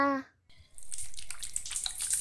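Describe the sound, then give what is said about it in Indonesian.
Tap water runs steadily while someone washes their hands at a faucet. The loud, broad, splashing rush starts after a short quiet moment and keeps going to the end, with small flickers of spatter. “Cuci tangan dulu”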